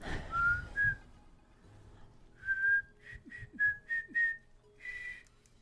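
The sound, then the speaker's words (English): A person whistles a tune: a few clear, sliding notes, then a quick run of short, bright high notes in a bouncy rhythm, moderately loud over a faint background. “And he turns around and he just starts whistling that same tune.”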